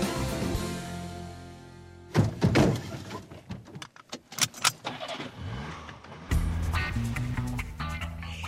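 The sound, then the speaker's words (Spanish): Car trunks and doors slammed shut on a busy travel day: a few heavy, hollow thuds and clunks in an irregular cluster, loud and abrupt against a steady background. “Ese es el sonido de un día como hoy, el de coches cerrando maleteros, cerrando puertas”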